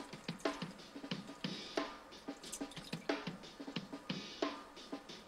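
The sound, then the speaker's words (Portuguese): A spoon stirs risotto in a pot as ladles of asparagus stock are added, giving many quiet, regular scraping strokes with light clinks in a steady rhythm. “Vamos agora juntando conchas do líquido que preparamos com os espargos e vamos sempre mexendo bem à medida que o risoto vai absorvendo o líquido.”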